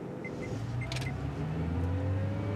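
A car pulling away from a stop, its engine note climbing steadily in pitch over a low rumbling hum, with a few short chime-like beeps near the start.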